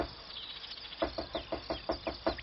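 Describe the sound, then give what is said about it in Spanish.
A woodpecker pecks at a wooden ladder, tapping the wood in a steady, quick series of crisp knocks that starts partway in, over a faint background hiss. “Un pájaro carpintero subió a mi escalera y comenzó con cuidado a picotear la madera.”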